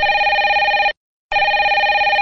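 Telephone ringing after a number is dialed: a loud, warbling electronic ring lasting about a second, a short silent gap, then the next ring starting, with no voices.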